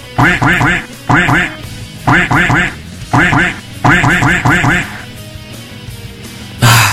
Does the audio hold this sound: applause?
no

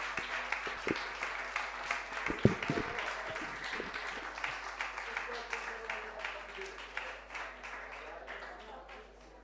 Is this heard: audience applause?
yes

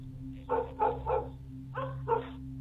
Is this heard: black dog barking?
yes

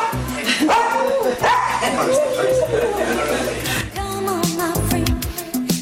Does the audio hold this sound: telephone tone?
no

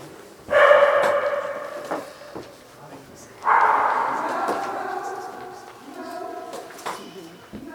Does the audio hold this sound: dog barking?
yes

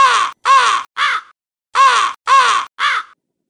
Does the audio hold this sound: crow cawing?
yes

